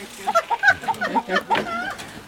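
A rooster lets out a quick series of short, clipped clucks in an irregular rhythm, fairly faint and heard alone.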